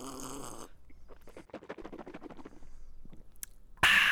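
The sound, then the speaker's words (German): Sips of ice-cold Coca-Cola being drunk, heard as a quiet run of soft, wet clicks and gulps in an irregular rhythm. “ich trinke jetzt erstmal einen schönen Schluck eiskalte Coca-Cola”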